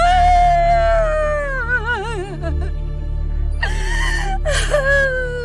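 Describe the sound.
A woman crying in long, drawn-out wails whose pitch trembles and wavers, over a steady low hum, breaking into shorter sobbing catches toward the end.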